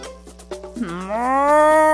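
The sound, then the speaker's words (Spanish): A cow on a ranch lets out one long, loud moo that swells in pitch and holds steady to the end, heard alone. “Una vaca de campo lo vio.”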